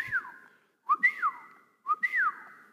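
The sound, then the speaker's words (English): A person whistles a father's loud calling whistle used to summon children home at dusk. The three separate phrases each jump up to a bright held note and then slide back down, clear and tonal with quiet gaps between. “he would do this very special whistle, something like,”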